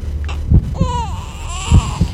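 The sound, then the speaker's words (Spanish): A baby cries in two drawn-out, wavering wails, loud and high, broken up by a few short low sobbing bursts. “¿Se oye un bebé? Sí, de momento se oye un bebé”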